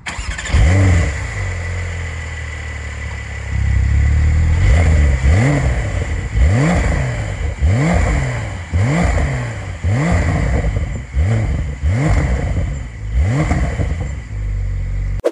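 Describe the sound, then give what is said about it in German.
A car engine revving over and over against a soft limiter, many quick blips climbing and dropping in a steady, even rhythm, loud throughout with no talk. “Der Sound ist relativ unspektakulär, was ihr jetzt vielleicht nicht direkt rausgehört habt, weil ich so einen gefühlvollen Gasfuß habe. Das Auto hat einen Softlimiter,”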